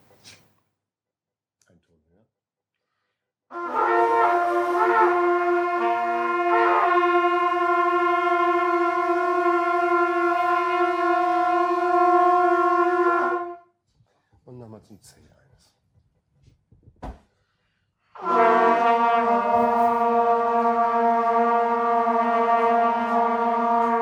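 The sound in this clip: Wind instruments hold a sustained G note together in a group lesson, with pitch set by embouchure and breath pressure. Two long, steady, harmonically rich tones sound, the first lasting about ten seconds and the second about six, with a pause between them.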